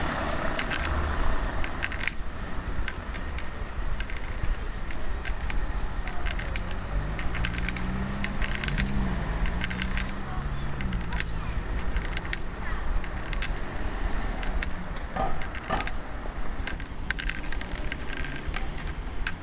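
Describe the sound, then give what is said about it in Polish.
Cars pass on both sides of a street in a steady wash of traffic noise, with a continuous rumble and hiss, a brief low engine drone midway and scattered faint clicks. “tutaj samochody po prawej, po lewej.”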